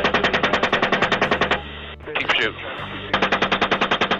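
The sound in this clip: Machine gun fire from a helicopter during an airstrike, heard as two long, loud bursts of rapid, evenly spaced shots separated by a pause in which a voice speaks over the radio.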